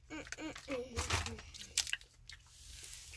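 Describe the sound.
Biting into and chewing a chewy cola-flavored candy: a few short, crunchy, squishy bursts of mouth noise, fairly faint, with brief voice sounds near the start.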